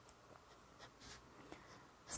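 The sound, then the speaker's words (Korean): Pen scratching over a pencil sketch on paper, a few faint, short scratchy strokes in an irregular rhythm, made in several separate movements rather than one continuous line. “지금 다른 건 보지 마시고 우리 스케치한 거, 연필 스케치한 것까지만 펜으로”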